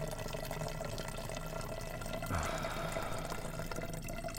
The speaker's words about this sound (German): Ja, in die Flasche. 12 Stunden unterwegs und nicht mal Zeit zum Pissen.